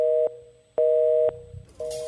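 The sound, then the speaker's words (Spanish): A telephone line plays tones as a call is transferred to voicemail: three steady electronic beeps with short silent gaps between them, and the last beep has a faint hiss behind it. “Su llamada será transferida al buzón de Roger Enexa.”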